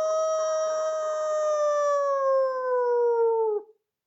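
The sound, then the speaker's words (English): A person imitating a howl: one long, steady, loud wail whose pitch drifts slowly downward before cutting off abruptly near the end. “That was a really good howl.”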